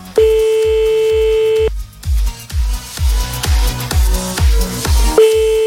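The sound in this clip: A telephone ringback tone from a call placed on a radio prank-call show: a long steady tone at the start that returns near the end, heard over a regular thumping music beat.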